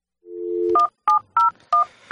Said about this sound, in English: And you hear the sound of the dial.